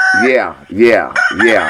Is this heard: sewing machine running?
no